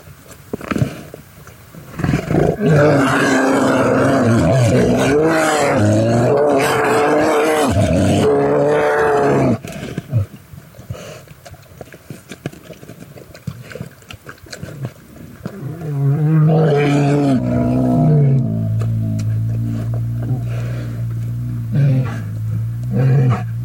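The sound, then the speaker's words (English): Grizzly bears caught on a remote field recorder give deep, loud, drawn-out groaning roars with a rough tonal quality, in two long bouts separated by a quieter stretch of scattered grunts and rustling. “we set up a remote field recorder in the hopes of getting the sounds of grizzly bears. And this is what we got.”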